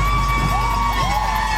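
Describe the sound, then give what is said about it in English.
Striking Mass General Brigham nurses and their supporters cheer on a picket line outside Brigham and Women's Hospital in the Longwood Medical Area. Steady crowd noise runs throughout, with thin sustained high tones above it. “That is the sound of the nurses and supporters outside Brigham and Women's Hospital over at the Longwood Medical Area.”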